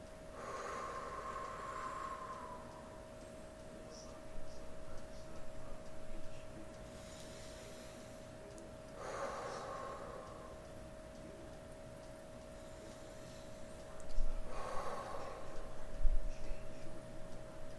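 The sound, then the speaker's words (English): Slow deep breathing, three long airy breaths spaced several seconds apart, soft and quiet over a faint steady hum. “Take three deep breaths, in and out, of course.”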